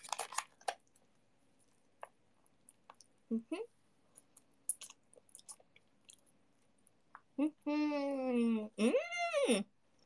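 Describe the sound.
Soft, wet chewing of udon noodles, with scattered quiet clicks and smacks that later give way to two drawn-out humming, moan-like voiced sounds near the end.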